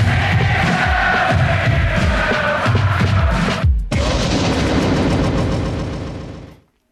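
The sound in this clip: A loud explosion effect from a Campus Radio jingle: dense, rumbling blasts with rapid gunfire-like crackle and a crowd-like roar, pulsing low bursts early on, a brief dip midway, then a fade to silence.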